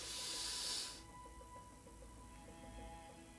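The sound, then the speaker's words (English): A deep breath drawn in through the nose makes a soft, airy hiss lasting about a second, followed by near-silence with a faint low hum. “Just breathe in all of your breath through your nose. Make it nice and audible.”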